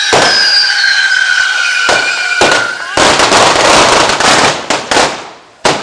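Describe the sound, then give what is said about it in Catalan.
A castell de petards at a devils' dance in the square during a Festa Major: many loud, rapid firecracker bangs crackling nonstop, with a shrill whistling squeal early on and a few sharp final cracks. “com poden sentir en aquest moment, els diables fan de diables en aquest moment, estan al mig de la plaça fent una de les seves danses amb un castell de petards, són petards i és foc”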